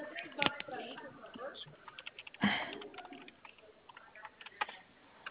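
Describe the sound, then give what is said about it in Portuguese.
Keyboard typing of a WhatsApp message, light irregular key taps with a couple of sharper clicks, under a voice talking. “Isso, eu tô escrevendo aqui no WhatsApp, já já vai chegar para você, tá bom?”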